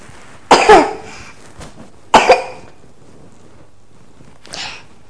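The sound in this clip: A person coughs three times, with two loud, harsh coughs followed by a fainter third one after a pause, and quiet stretches between them.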